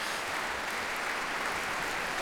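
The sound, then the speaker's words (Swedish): Standing-ovation applause from a concert-hall audience after a symphony: dense, steady clapping blends into one continuous, fairly soft wash with no separate claps standing out. “Och det är som sagt stående ovationer här i Berwaldhallen ikväll.”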